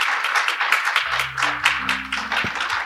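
Audience applause at the close of a live event, a steady wash of clapping at moderate loudness, with a low sustained hum entering partway through beneath the claps.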